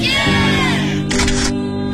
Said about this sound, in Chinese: 还记得毕业时按下快门瞬间的永恒。 来来来，看镜头，一二三。